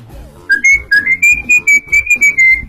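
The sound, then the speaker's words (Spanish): A person whistles a quick tune of about a dozen short, clear notes at a fairly steady high pitch, loud and in a lively, bouncy rhythm. “No, pero si vas silbando así.”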